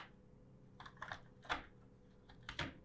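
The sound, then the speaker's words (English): A Teksill device clicks into place on a 2x4 wooden stud: a few quiet, sharp plastic clicks and taps, with two slightly louder snaps standing out from the faint rattle. “Yeah, it's pretty simple. You're done. Click. One click. It's installed. Yeah. It won't fall off. It grabs on.”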